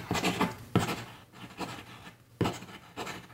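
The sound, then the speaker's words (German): A pen writes vigorously on paper, giving a series of dry, hissing scratch strokes in uneven bursts that rise and fall in loudness, with no talking. “aber im Moment, im Moment schreibt er wirklich vehement.”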